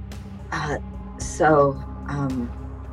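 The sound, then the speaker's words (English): A performer voices a character clearing her throat: a few short, rough vocal bursts with a harsh, breathy hiss in the middle, separated by brief pauses. “Mika actually clears her throat and steps forward and goes,”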